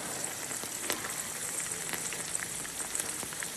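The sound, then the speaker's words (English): An egg frying in a pan during an attempt to cook a fried egg: a continuous, fairly loud sizzle and crackle with scattered sharp pops, no talk. “Maybe some of you have seen this on Facebook, where I went to the community and I showed a video of my attempt to cook a fried egg. Let's watch this together.”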